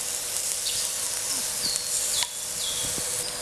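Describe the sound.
Food sizzling on a grill in Thai home cooking, left until it reddens before being turned. It gives a steady, bright hiss with faint crackles and no talking.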